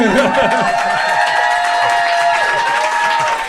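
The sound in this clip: Audience at an event cheers loudly, with whoops and shouts over scattered clapping, forming a brief, continuous burst of crowd noise.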